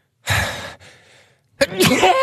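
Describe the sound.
A person sneezes: a loud, sharp, breathy burst, then a softer exhale, and a second strong burst near the end.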